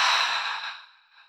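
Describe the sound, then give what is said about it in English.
A single deep exhale during a guided breathing exercise, a soft, breathy sigh that starts full and fades away over about a second. “Take a deep breath in through your nose to smell the rose. And a deep breath out through your mouth.”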